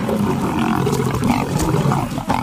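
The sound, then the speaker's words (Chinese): Lions roar and snarl in a fight among lionesses, a loud, continuous stretch of deep growling and roaring. “狮子们忙于解决群体之间的纷争，错失了一顿美餐。”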